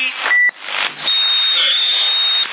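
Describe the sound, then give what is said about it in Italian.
A short high beeping tone comes through on a CB radio, followed by loud, sustained hissing static that nearly fills the rest of the transmission. “E adesso il rumore è pure diverso, fa pii.”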